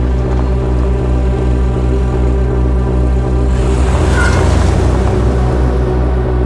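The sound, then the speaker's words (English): Loud, steady engine rumble from a white convertible reversing out of a parking space in a lot and driving off. The deep drone is continuous throughout, with its texture shifting slightly midway and no voices. “She reverses her white convertible out of her space and sets off in pursuit.”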